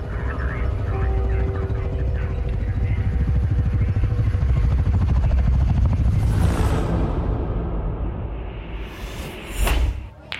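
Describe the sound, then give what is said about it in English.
A police helicopter hovering overhead, its rotor making a loud, continuous, rhythmic low chopping over a thick engine roar that holds steady for most of the time, then the sound shifts and thins near the end. “the hovering police chopper, which has him in its spotlight”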